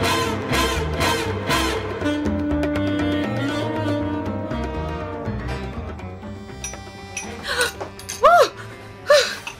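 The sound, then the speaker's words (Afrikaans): A startled gasp in an Afrikaans crime drama scene comes near the end as a few short, sharp breathy intakes, after a long stretch of low, steady background sound. “Skrik. Ek het julle nie hoor inkom nie.”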